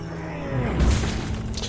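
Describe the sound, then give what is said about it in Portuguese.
A body slammed against a stone wall: one dull, heavy thud, then a rough, crumbling rush like stones breaking. “Ele bate seu corpo contra a parede, mais uma vez, para demonstrar força.”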